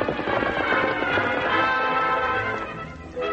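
Horses' hooves clip-clopping as riders set off: a dense, continuous, loud pounding of hoofbeats.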